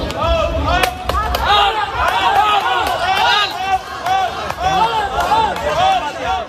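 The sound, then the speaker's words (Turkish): Parents outside a school applaud and chant in unison in support of a student. Many overlapping voices rise and fall in loud, continuous rhythmic shouting, with claps mixed in throughout. “Veliler alkışlarla birlikte al al sloganları atarak destek verdi.”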